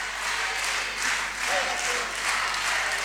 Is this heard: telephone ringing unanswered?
no